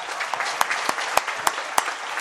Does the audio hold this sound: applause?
yes